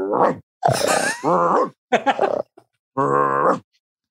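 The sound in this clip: A voice imitates a dog's barking, adding a snort and a growl on the intake. A few rough, throaty bursts of varying length are separated by short pauses.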